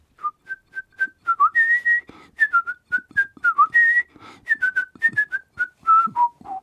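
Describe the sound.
A woman whistles a lively classical melody alone, with many short, clear, bright notes in a bouncy rhythm and a few held longer, ending on lower notes.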